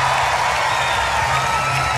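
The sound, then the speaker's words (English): A large concert crowd in Europe cheers and applauds, a dense, continuous roar of clapping and shouting that holds at a steady level. “I think this is the biggest crowd we've ever had in Europe.”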